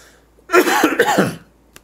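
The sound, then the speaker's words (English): A single cough, a rough, noisy burst lasting under a second with a throat-clearing quality, followed by a faint short click, otherwise quiet. “Let me mute my mic here so I can cough.”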